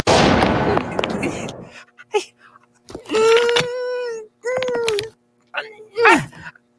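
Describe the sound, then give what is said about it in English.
A cartoon shrink gun fires in a loud, harsh, noisy zap lasting over a second, followed by wailing and whimpering cartoon voices. “When I was a kid, if someone brandished a shrink gun, he'd get a little bit of respect. Shrink gun!”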